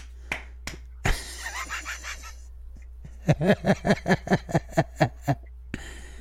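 Hand slaps on a bare belly: a few softer smacks, then a quick, evenly spaced run of many sharp, fleshy slaps, loud and crisp against quiet gaps.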